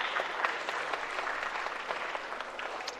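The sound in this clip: Applause in the State Capitol chamber welcoming visiting guests, a steady, dense clatter of many hands clapping that continues evenly throughout.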